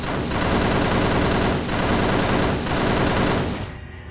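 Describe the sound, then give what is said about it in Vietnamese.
A sound effect of automatic gunfire: one long, dense, unbroken burst that stays loud for about three and a half seconds, then cuts off into a brief ringing tail. “tôi bóp cò quét một chập vào cái thứ nấp sau tảng đá. Cứ dùng hỏa lực áp đảo đã rồi tính sau.”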